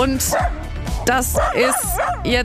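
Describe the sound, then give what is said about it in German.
A dog riding in a bicycle trailer yelps and whines in a string of rising and falling cries while a man talks over it. “Das ist mein Hund Cooper”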